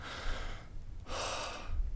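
A deep breath in and then out: two soft, airy rushes of breath, each about half a second long, separated by a brief pause, with no talking.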